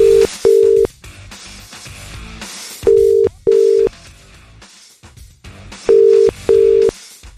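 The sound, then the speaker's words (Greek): A telephone call is dialled on a morning radio show: a steady electronic tone sounds in three pairs of short beeps, evenly spaced and loud, over a continuous background. “Άντε, παίρνουμε τώρα για ΑΕΚ.”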